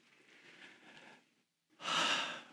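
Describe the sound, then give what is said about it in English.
A deep breath taken at a morning prayer gathering: a soft, airy inhale lasting over a second, a brief silent pause, then a louder, rushing exhale. “I want to invite you to just take a deep breath”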